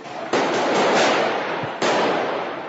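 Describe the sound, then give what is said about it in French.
Police grenades explode in two sharp, loud blasts about a second and a half apart, each followed by a long, dense rushing roar that slowly fades. “Quelques instants plus tard, la police lance des grenades.”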